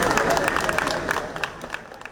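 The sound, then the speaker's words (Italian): Applause and greetings from Neapolitans and tourists for the president in the historic centre of Naples: moderate clapping blended with crowd chatter, gradually thinning out toward the end. “Nel centro storico, applausi e saluti di napoletani e turisti al presidente.”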